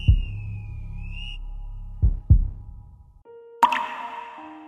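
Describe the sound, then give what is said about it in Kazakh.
Water drops plop a few times, hollow low-pitched plinks separated by pauses, the first heard over a faint steady whistling tone, with a brighter ringing drop near the end. “Мән бір тамчы су. Мән мұ бір тамчы су?”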